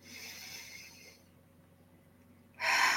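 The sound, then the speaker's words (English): A deep breath taken during a guided meditation: a long soft breathy rush of air, a quiet pause, then a louder, fuller breath at the end. “Be with that for a moment and breathe. And breathe.”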